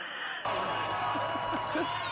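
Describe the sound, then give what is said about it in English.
A political rally audience breaking into crowd noise that cuts in abruptly after a brief moment, then holds as a steady roar of cheering and mixed voices. “Are they applauding socialism there? Yes, Greg, they are.”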